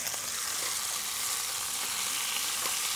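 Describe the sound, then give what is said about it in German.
Beef rouladen sizzle steadily in a frying pan as they are turned for the first time, a dense, even crackling hiss with faint scraping ticks and no voices. “Das machen wir jetzt einfach mal so. Drehen wir die Rouladen zum ersten Mal.”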